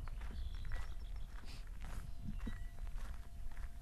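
Footsteps walking outdoors toward wetlands, a faint, steady series of crunching steps over a low rumble of background noise.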